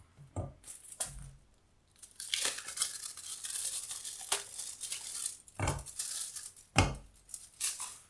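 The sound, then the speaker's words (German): Two chocolate bars are halved and tossed into a pot. A few sharp snaps and knocks stand out against quiet, steady crinkling and tearing of wrappers. “Da nehme ich die zwei Tafeln Schokolade. Ich halbiere die nur, schmeiße die auch mit in den Topf.”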